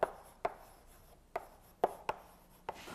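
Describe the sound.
Writing on a board during a lecture on matrices and eigenvalues: about six sharp, faint taps and short scrapes at irregular intervals, with no talk.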